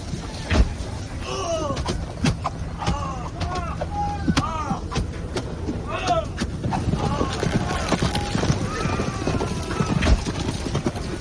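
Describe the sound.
Cavalry horses galloping and neighing in a battle scene: dense, continuous hoofbeats with several high, wavering whinnies rising over a loud, busy background.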